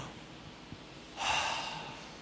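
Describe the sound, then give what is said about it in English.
A group takes a deep breath together: after a quiet stretch, one long, breathy inhale rises past the midpoint and holds steady to the end, with no talking. “everyone, let's take a deep breath”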